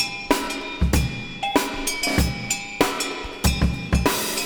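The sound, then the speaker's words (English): A funky drum beat on a music track: a steady groove of punchy kick and snare hits, with bright cymbal hiss between them, repeating many times at an even tempo with no voices. “Got a funky drum beat, which sounds like this.”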